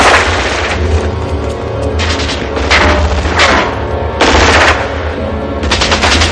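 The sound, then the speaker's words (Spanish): Film gunfire from the 1988 action movie Die Hard, as gunmen attack on the rooftop helipad of Nakatomi Plaza. Loud bursts of rapid automatic fire recur in quick succession over a heavy low rumble, separated by brief lulls. “En la azotea, Carl y sus hombres acosan a John, que dispara mientras corre alrededor del helipuerto.”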